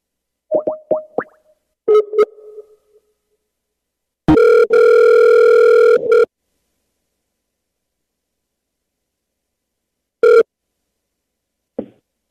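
Telephone dial tone and ringing on a call: a few soft clicks, then a loud, steady, buzzing tone held for about two seconds, a short matching tone later, and a final click, with no voices.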